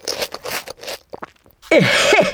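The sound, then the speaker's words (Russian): Loud crunching as someone bites into an edible plate made of grain bran. A dry, crackling burst of crunches follows a stretch of quieter sounds. “Удобно, конечно. Съел и брать посуду мыть не надо. Конечно, забавно тарелку съесть.”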